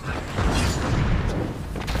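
A grenade explosion in a video game, a loud, rumbling burst of dense noise with heavy low-end weight that rolls on for about two seconds.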